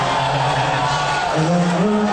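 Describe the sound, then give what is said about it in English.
A crowd boos during the national anthem at Madison Square Garden, at Game 3 of the NBA Finals. The dense, steady roar of many voices stays loud throughout, with faint sustained tones over it. “And so when they put him on the big screen during the national anthem, the crowd turned on him. And that tells you all you need to know because there are a few prouder patriots in the world than Americans. To boo during the anthem is pretty extreme.”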